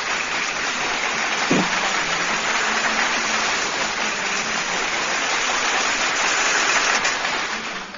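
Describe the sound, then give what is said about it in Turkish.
Applause after a poem recital: a steady, hissing wash of many hands clapping that stays loud and even, then eases off slightly at the close. “Yürekten kutluyorum kalemini ve o zaman kocaman bir alkış gelsin.”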